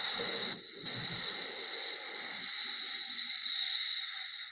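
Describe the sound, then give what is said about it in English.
Slow, long breathing carries a soft sound in the throat, heard as a steady, quiet hiss that fades gently at the end. “Slower and longer. With that little bit of sound in the throat.”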